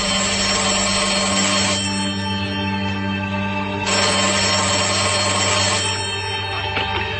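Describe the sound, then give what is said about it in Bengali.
A mobile phone rings with an incoming call: a loud, continuous electronic ringtone of sustained tones whose pattern shifts every couple of seconds, with no talking. “আর যখনই ফোনটা খুলি সাথে সাথে ভাইয়ার call.”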